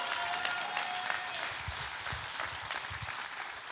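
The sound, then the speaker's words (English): A church audience applauds during a sermon, producing a fairly faint, steady wash of clapping that continues throughout. “Can we make some noise for the glory of Jesus?”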